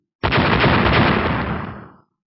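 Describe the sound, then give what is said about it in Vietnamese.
A loud blast of magic qi explosions bursting one after another sounds as a single dense, rumbling roar of about two seconds. It starts abruptly, holds strong, then fades away, with no voices. “Khí bạo thuật nổ tung hết cái này tới cái khác”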